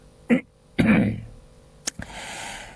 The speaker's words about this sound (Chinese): 清了清嗓子